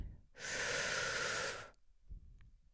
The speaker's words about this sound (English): I want you to take a deep breath in